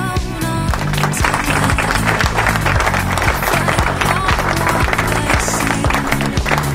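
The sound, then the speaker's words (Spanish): Loud, continuous applause with dense clapping that runs unbroken for the whole clip over rhythmic music with a stepping bass line. “Aplausos para todos los nuestros queridos oyentes que nos están escuchando”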